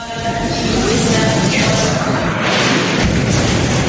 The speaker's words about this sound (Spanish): Una bomba que ha caído en la puerta de una iglesia en Gaza.